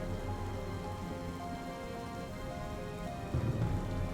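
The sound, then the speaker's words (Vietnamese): Rain falling in a steady, soft hiss of many drops, continuous and even throughout with no voices. “Ông Lâm đang đứng trước cửa sổ ngắm nhìn từng hạt mưa rơi”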